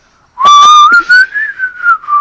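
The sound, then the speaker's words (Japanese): A person whistles a short tune alone, a clear and bright melody that wavers and glides in pitch across a couple of seconds, with no talk. “口笛好きっすね。”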